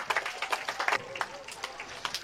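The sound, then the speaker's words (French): An audience claps and calls out in acclamation of the Virgin Mary. The claps are scattered and irregular, mixed with voices, and stay fairly quiet throughout. “On va acclamer la Vierge Marie.”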